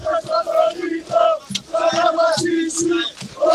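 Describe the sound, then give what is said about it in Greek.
A crowd of basketball fans chanting loudly in unison. The rhythmic, sustained chorus of many voices rises and falls without a break. “πάμε να ακούσουμε, ακούμε κόσμο, ακούμε κόσμο”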